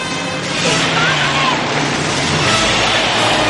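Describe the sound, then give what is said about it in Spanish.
A car skids after bursting out through a door, a loud, steady, broad roar and hiss that holds throughout. “El coche sale reventando la puerta. Derrapa ante ellos.”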